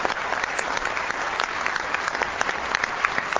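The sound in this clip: Audience applause greeting a staff assistant to a United States senator being introduced at an event: a steady, even sheet of many hands clapping, sustained at a constant level throughout.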